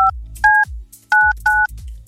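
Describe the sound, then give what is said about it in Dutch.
Touch-tone telephone keypad dialing for a call: four short dual-pitched beeps in an uneven rhythm over a low rumble, with no talk. “dus ik ga nu mijn zus bellen.”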